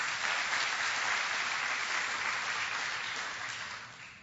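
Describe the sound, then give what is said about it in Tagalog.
A church audience breaks into applause: dense, steady clapping from many hands that holds for about four seconds, then thins and fades toward the end. “Pwede bang palakpakan natin ng Panginoon?”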